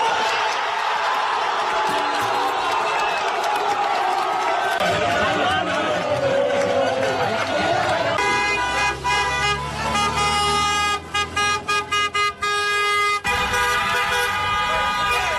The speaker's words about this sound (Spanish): Ambiente en los bajos del Fenicio de Almuñécar, que luego se trasladaría tras el partido a la Fuente de la Carrera, Paseo Andrés Segovia también de la Herradura.